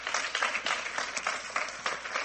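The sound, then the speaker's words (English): A church audience claps in praise, a dense wash of many hands in uneven surges that swell and ease across the moment, with no voices standing out. “Get a lot of hand clap of praise.”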